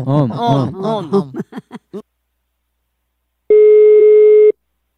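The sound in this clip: A single ringback tone of an outgoing telephone call sounds for about a second, a steady mid-pitched electronic tone. It follows a stretch of speech and a pause of silence.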